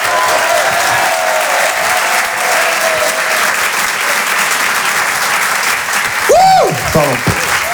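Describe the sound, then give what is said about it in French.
Audience applause at a stand-up comedy show as a comedian is welcomed to the stage: dense, steady clapping that stays loud and even for the whole stretch, with no talk over it. “Je vous demande de l'encourager, faites un maximum de bruit, s'il vous plaît, pour Clément Kersual.”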